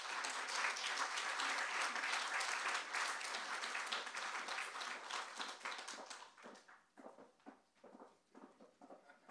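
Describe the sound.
At a bookstore reading event, an audience applauds to welcome two speakers. The clapping is dense and sustained at first, then thins over the last few seconds into scattered individual claps.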